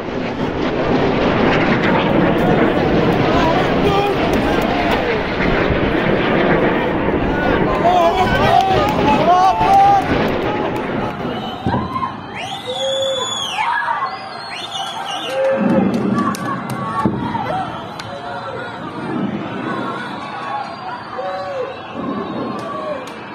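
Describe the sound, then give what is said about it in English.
Rocket barrages over Israel produce a loud, sustained roaring rush for about ten seconds, followed by a quieter stretch where people talk amid scattered rumbles and high whistling tones. “here's a video I put together with Tabitha. There's much better footage. I'm sure many of you have seen it, but it's just a small taste of what those barrages look like.”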